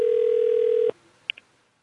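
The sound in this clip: Telephone dial tone heard while calling back: a steady, loud tone holds for about a second and then cuts off abruptly, followed by two short, fainter beeps.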